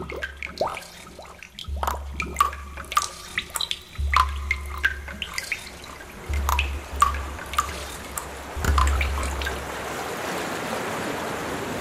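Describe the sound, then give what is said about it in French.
Water dripping and flowing in Paris: many separate bright drips fall at an uneven pace over a soft, low trickling flow that comes and goes. “Le son de l'eau à Paris.”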